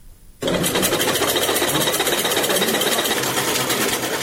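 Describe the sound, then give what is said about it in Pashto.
Sewing machines run in a tailoring workshop where only a few machines still operate. After a brief quiet moment, a loud, steady, rapid mechanical whirr and clatter starts and holds an even rhythm throughout. “په دې خیاطي کارخونه کې چې یو وخت ګڼ شمېر ماشینونه چلیدل اوس یوازې څو محدود ماشینونه فعال دي.”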